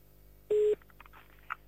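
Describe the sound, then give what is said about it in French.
A single touch-tone keypad beep as a phone number for a store in Charleroi is dialed: one short, steady, loud tone, followed only by faint low sounds. “Et on va appeler à Charleroi maintenant.”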